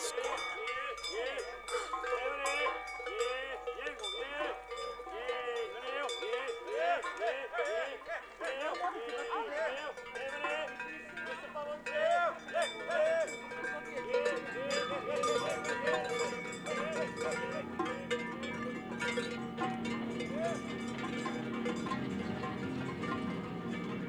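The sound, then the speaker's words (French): Cowbells worn by a herd of cows clank and ring over and over in an uneven, overlapping jangle that continues at a moderate level throughout. “C'est au tour des vaches”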